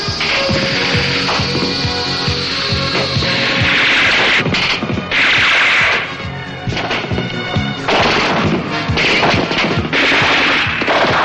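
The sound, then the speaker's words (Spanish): Assault rifle gunfire in a 1979 science-fiction parody film, aimed at a flying hero near a ship: loud, dense, continuous rattling bursts mixed with crashing impacts and a steady roar, with no pause throughout. “Le disparan con fusiles de asalto sin conseguir derribarle.”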